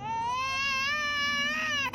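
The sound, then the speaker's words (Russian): A child crying: one sustained, high-pitched wail that wavers slightly in pitch and stays loud for about two seconds before breaking off. “Ребенок несколько раз всхлипнул и затих.”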